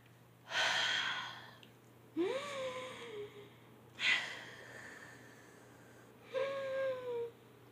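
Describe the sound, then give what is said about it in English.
Breaths blown into a covered microphone: four slow, muffled, airy exhales at fairly even intervals with quiet between. Some carry a faint whistling, sighing tone. “let me breathe without killing your ears. Okay, so I'm gonna cover up the mic.”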